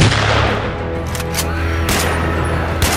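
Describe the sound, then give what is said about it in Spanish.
A volley of sharp gunshots cracks out in quick succession as three rookie shooters open fire together, a few loud bursts standing out above a low, steady hum. “En total se hicieron 4 disparos en menos de 10 segundos”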